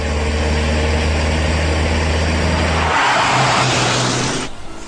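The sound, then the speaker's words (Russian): Engine of a Lada Zhiguli car driven hard on a country road: a loud, steady low drone that turns into a rushing roar in its final seconds before dropping off abruptly. “На загородных дорогах любил выжимать из своих «Жигулей» все возможное.”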